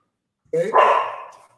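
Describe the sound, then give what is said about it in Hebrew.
A female pet dog gives a single loud, drawn-out bark that trails off, heard alone against silence. “הנה, זאת הייתה הכלבה שלי, זאת הייתה ג'קי.”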